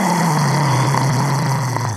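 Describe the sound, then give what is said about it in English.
A voice imitates a fierce dragon roar with a sustained, raspy growl. It holds loud and steady for about two seconds. “out of nowhere, everyone hears this fierce dragon roar coming from the”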